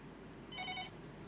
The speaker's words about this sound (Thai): ผู้ฟังโทรมาแล้วโทรจากไหนครับ